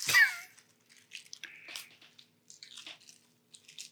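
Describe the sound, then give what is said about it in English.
A Fruit Roll-Up wrapper crinkles as it is slowly unwrapped. Faint, irregular crisp rustles follow a sharper burst at the start. “But you got to stop with the crinkling. I'm about to punch a fruit roll up.”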